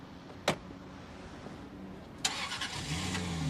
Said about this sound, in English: He replaces the disc, starts the engine, and drives away.